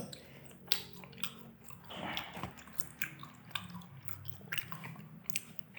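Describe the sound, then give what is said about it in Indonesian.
Wet chewing as someone eats the skin from a dish served with chili sauce: many soft, crunchy bites and squishy mouth sounds, faint and continuous, with no talk. “Wah enak sih makan kulitnya doang juga.”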